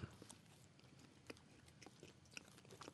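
Faint chewing of a bite of caramel banana: many small, soft crunching and biting clicks in an irregular rhythm, with no talk.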